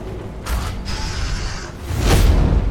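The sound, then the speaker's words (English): A door opens in a video game with a mechanical grinding creak. Its sliding whir lasts over a second, then a heavier, deeper rumble swells up near the end. “Going through a door.”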